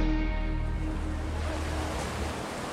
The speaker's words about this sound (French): je suis à Menton, vous entendez peut-être derrière moi la mer Méditerranée.